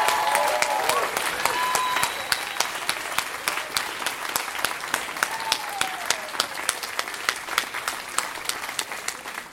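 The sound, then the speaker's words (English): A theatre audience applauds after a story told on stage: loud, sustained clapping with many sharp individual claps poking through, easing off slightly toward the end. “Give it up for Kevin Allison. That was a fantastic story.”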